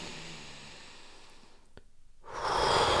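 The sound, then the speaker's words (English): Deep breath drawn in through the nose during a guided meditation, a soft airy hiss that dips into a brief quiet gap, then swells into a loud, full rush of air near the end. “we can take a few nice deep breaths in through the nose”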